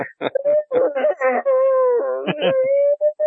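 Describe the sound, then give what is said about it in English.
A voice imitates a damaged nuclear attack siren with a disturbing, keening wail. Short vocal bursts lead into a sustained, wavering tone that dips slightly before more broken vocal sounds follow. “I think it ought to be a nuclear attack siren. It's been slightly damaged in the course of the apocalypse, so it has this disturbing, keening wail as it”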